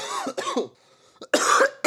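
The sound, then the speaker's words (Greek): A man coughs several times in quick, harsh bursts, with a short quiet gap in the middle. The coughs are fairly loud and stand alone with no talk. “Δεν τους κάνουν τους βήχες όπως παλιά, έτσι, αντρικούς, αρενοπούς.”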